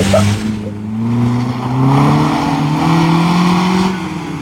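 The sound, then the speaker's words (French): A motorbike engine sound effect drives off, a loud, continuous droning rev whose pitch climbs gradually as the bike pulls away. “Ah si. C'est une moto de merde.”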